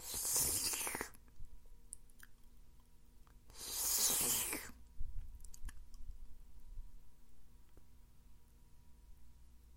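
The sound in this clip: Wet mouth licking sounds in an intimate roleplay: two distinct bursts of close, hissy, slurping noise separated by a quiet gap, followed by faint scattered clicks and smacks.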